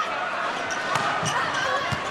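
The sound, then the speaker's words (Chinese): A volleyball is struck during China's match as a player serves: a few dull thuds of ball contact over steady arena noise, while a commentator talks throughout. “十号黎如英的发球”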